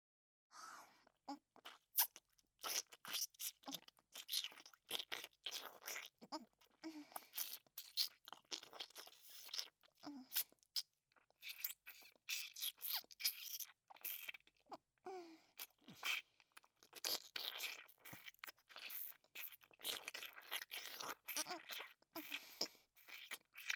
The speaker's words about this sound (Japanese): 今度のキスは唾液をくちゅくちゅかき混ぜるので、しっかり飲んでくださいね。